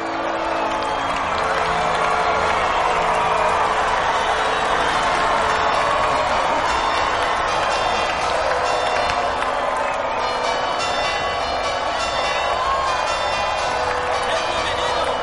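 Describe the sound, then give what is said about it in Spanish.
A large crowd on a pier cheers and shouts continuously to welcome arrivals stepping off a ship, a dense, steady roar of voices that never lets up. “En el muelle, una multitud ondea banderines norteamericanos e irlandeses. Ellos saludan. Hay pancartas de bienvenida.”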